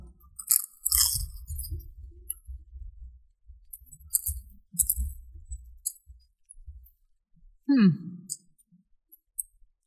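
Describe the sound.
Crunching and chewing of honey butter flavored potato chips, with sharp crisp bites arriving in several bursts separated by quieter stretches of munching.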